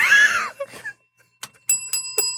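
A bell rings with a few short, bright, clear strikes near the end. Brief scattered sounds come before the strikes, and each one leaves a thin ringing tone.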